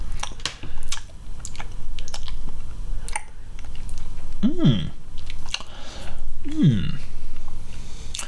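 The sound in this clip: Chewing while tasting an egg dish: soft, wet, repeated mouth sounds in an uneven rhythm, heard under people talking.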